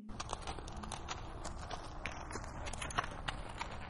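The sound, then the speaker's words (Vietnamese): Faint clip-clop of a horse-drawn carriage crossing a stone bridge over a river, light hoof beats ticking along at a steady, brisk pace with no voices. “Trên Kiều Loan Trấn, Tiêu Vương Tôn thuê một chiếc xe ngựa, đang chạy qua cầu đá vượt sông đi tới huyện Thủy Ngưu”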